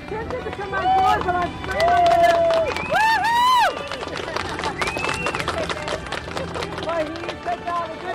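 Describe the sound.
A crowd welcomes a rower arriving into port, with dense, loud cheering, clapping and long raised yells and whoops running continuously under people talking.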